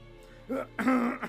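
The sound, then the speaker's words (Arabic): A man, a vizier, clears his throat and coughs with a hand over his mouth, making a few short, voiced throaty bursts that grow louder toward the end. “تنحنح الوزير ووضع يده على فمه وهو يكح ليخفي اضطرابه.”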